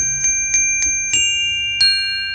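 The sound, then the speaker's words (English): Bright electronic chimes from an astronomy app when a star on the map is touched: five ringing strikes in a fairly even rhythm with sustained, clear high tones, alone without any talking. “the chimes, it's so authentic.”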